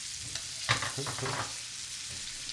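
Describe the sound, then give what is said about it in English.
Bacon grease sizzling in a pan, a faint steady hiss with a few small crackles and pops, no talk. “All right, so we got the little bacon grease in there”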